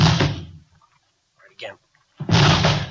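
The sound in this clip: Police officers forcing open a locked door: two heavy, booming crashes against it, separated by a pause in which a voice briefly speaks.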